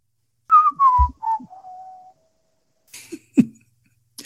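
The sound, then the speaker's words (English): A descending, video-game-style whistle like a character falling off a cliff: a few short whistled notes step down in pitch into a long falling tone, then fade, followed by a couple of brief, breathy cough-like bursts. “I don't know if that was the sound of Mario falling off of the cliff or what.”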